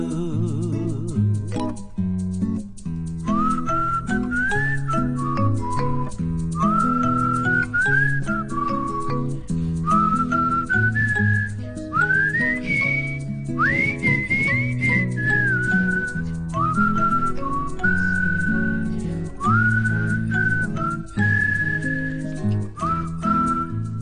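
Melodic whistling of a tune over instrumental pop accompaniment, with sustained notes and short upward slides between them, phrase after phrase throughout.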